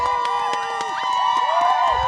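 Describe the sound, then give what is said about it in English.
Whoops and glove-muffled clapping from a crowd at a sled dog race finish line in Fairbanks as the team arrives: many high, rising and falling whoops over scattered dull claps, lively and sustained throughout. “They come to a stop as a chorus of whoops and glove-muffled claps erupts from the awaiting crowd.”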